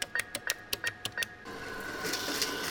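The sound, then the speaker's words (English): An ATM dispensing cash: a quick, regular run of about eight sharp mechanical clicks, then a steady whirring rush as the notes feed out. “Have you ever been with an adult who sticks a debit card into a machine that sounds like that, and then the machine spits out dollar bills? That's called an ATM machine”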